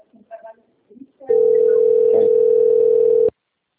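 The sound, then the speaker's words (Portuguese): A steady telephone line tone sounds on a call, a single unbroken mid-pitched hum lasting about two seconds, loud and even. Brief voices come before it, and it cuts off abruptly. “só que agora tem telefone”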